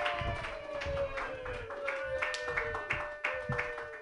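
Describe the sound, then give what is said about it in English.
Faint, rhythmic clapping from a comedy show audience welcoming a comedian, even beats continuing under a sustained tone. “Put your hands together for your first comedian, everybody.”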